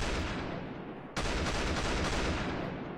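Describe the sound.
Gunfire and strikes in Ethiopia: a faint, dense, continuous crackle of shots that jumps slightly in intensity partway through.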